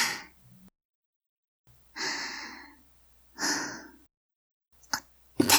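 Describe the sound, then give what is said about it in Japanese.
A deep breath is drawn and blown out to calm down, in a quiet setting with someone resting on a lap. Several soft, airy exhales are heard alone, separated by silent pauses, and end with a few short, sharper puffs. “別に息吹きかけるつもりじゃん。ただ気持ちを落ち着けようと深呼吸しただけで。”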